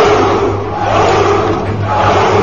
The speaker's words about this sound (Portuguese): Eu posso colocar uma multidão, que droga, no fundo.